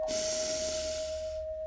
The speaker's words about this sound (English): And we're going to start by taking 3 deep breaths. We'll breathe in,